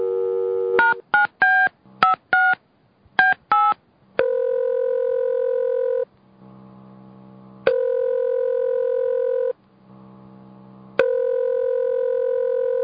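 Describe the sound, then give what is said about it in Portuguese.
A telephone number is dialed on a keypad as a quick run of short electronic beeps at varying pitches, followed by three long, steady ringing tones separated by pauses. “Vou ligar pro Victor também.”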